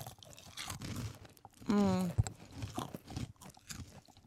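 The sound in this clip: Someone crunches on small heart-shaped baby food snacks, with crisp crunching bites mixed among talking voices and a short, sharp crack standing out in the middle.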